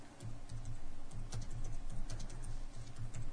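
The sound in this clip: Typing on a computer keyboard: many quick, light key clicks in an uneven rhythm over a constant low background hum.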